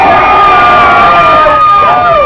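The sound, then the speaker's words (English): A crowd yells and cheers in a loud, continuous roar of whoops and shouts that holds steady throughout without a break. “I want everyone to give a big shout to Greg. Start yelling, come on.”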